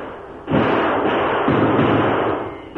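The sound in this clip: Gunfire from riders on horseback circling a house during a battle: two heavy booming bursts about a second apart, each spreading into a loud, dense roar that fades slowly.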